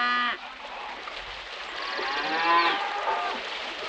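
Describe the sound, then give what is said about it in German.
Cattle mooing: a short harmonic call opens, then a long, loud, drawn-out moo builds and holds to the end, with overlapping animal calls and no voices. “Rinder.”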